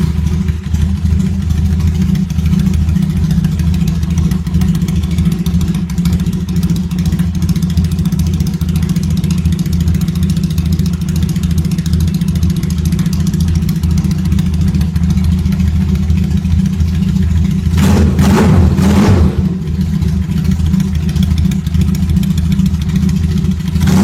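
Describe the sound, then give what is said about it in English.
The engine of a small 1983 motorcycle with a slight hesitation runs at a steady, low, throbbing idle. A short burst of revving lifts the sound near the end before it settles back to idle. “Bike starts runs pretty good. It's not too bad for a little bike.”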